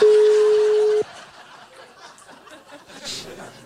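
A ringback tone plays while a phone call to a listener goes unanswered: a single steady mid-pitched tone holds for about a second, then cuts off, leaving a quieter background.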